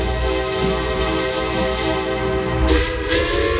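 A train arriving at an old station gives a continuous rumbling roar under steady, sustained horn-like tones, with a brief louder burst near the end.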